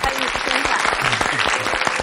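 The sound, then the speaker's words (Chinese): Audience applause welcomes a guest onto the stage, steady dense clapping throughout with a voice talking over it. “接下来要出现的这位林先生，就曾经是李主任的一个患者，咱们掌声欢迎。”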